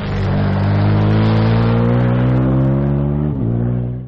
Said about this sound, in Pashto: همدغه اوسې زه موټرسایکل وچلوم